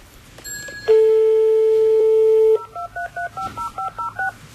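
A telephone dial tone, then keypad dialing to call a taxi: a steady, loud tone holds for almost two seconds before a quick, even run of short touch-tone beeps at varying pitches.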